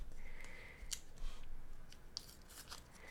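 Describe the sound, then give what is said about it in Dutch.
Scissors cutting paper make a few faint, crisp snips and clicks against a quiet background, with no talk. “Jij mag knippen”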